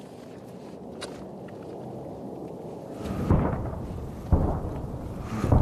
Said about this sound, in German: Sie haben's getroffen. Na, also. Na, geht doch, ein Treffer. Ihr habt darum gebeten, hier habt ihr's. Ja, das ist ein Granatwerfer.